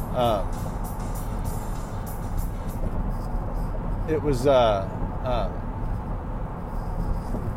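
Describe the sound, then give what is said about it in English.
Steady road noise inside a moving car, a low continuous rumble and hiss that runs under a man talking throughout. “and again, I apologize for the road noise. I'm on the road today”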